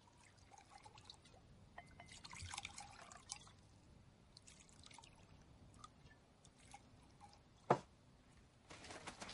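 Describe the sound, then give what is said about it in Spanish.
Liquid pours from a bottle into glasses as soldiers drink in a WWII setting. A faint, soft trickle runs throughout, broken by one sharp, bright tap near the end. “Coge una botella y llena los vasos.”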